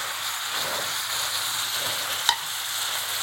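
Reduced braising sauce poured over celery sizzles in a steady, even hiss that holds for about three seconds, with one brief sharp click near the end.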